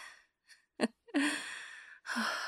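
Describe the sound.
Heavy panting as someone catches their breath: a few breathy gasps and exhales separated by short pauses, with one long drawn-out breath in the middle, some carrying a faint voiced tone.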